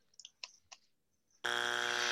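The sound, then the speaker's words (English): A quiz-game buzzer is pressed: a few faint short clicks, then a loud, harsh, steady electronic buzz cuts in abruptly and holds at full strength to the end. “He says no. Well, he just wanted to use the buzzer now. That's probably all he wanted to do.”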